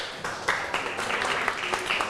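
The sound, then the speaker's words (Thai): Faint, brief clapping from a group of students applauding themselves during a lesson, a few scattered claps over a soft patter. “ปรบมือให้ตัวเองครับ”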